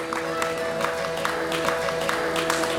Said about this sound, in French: Vous pouvez les applaudir. Ah oui, oui, vous pouvez absolument les applaudir.